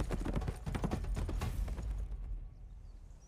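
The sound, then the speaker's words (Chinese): Horse hooves gallop away as a rider whips the horse and rides off: a fast, steady run of many hoofbeats that thins and fades out after about two seconds. “他挥鞭打马，扬长而去。”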